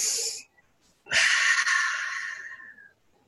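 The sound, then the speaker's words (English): A person takes a deep breath: a short breathy burst, a brief pause, then a long, loud rush of air lasting nearly two seconds that gradually fades. “I'm going to take a breath.”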